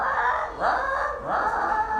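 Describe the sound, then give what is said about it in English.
A voice imitates a crow's croak as it looks for food, making two harsh, drawn-out calls with a squawking tone, loud and alone. “It's the croak of a crow looking for food.”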